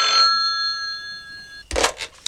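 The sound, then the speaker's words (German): A telephone rings with a steady, bright electronic tone held for about a second and a half, then cuts off and is followed by a few brief, louder bursts of sound. “Da klingelte das Telefon.”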